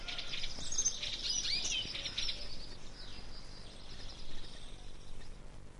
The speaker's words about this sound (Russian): Самое уютное гнездышко у долгохвостой синицы. Сейчас звучит ее песенка.